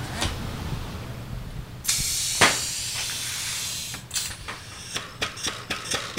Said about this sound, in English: The bottle filler does 6 bottles at a time. And I have to say, it's a thing of beauty to see that dark amber liquid pouring into those gleaming bottles.